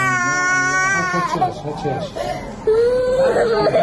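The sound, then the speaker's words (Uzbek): An injured young girl cries in pain as a nurse stitches her head wound without painkillers in a hospital in Gaza. A loud, sustained high wail breaks into choppy sobs, then rises into another drawn-out cry. “Hamshira yaralangan qizchaning bosh jarohatini og'riqsizlantiruvchi vositalarsiz tikyapti. Bola og'riqqa dosh bera olmay yig'layapti.”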